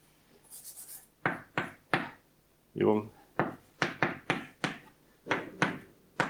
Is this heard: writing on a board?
yes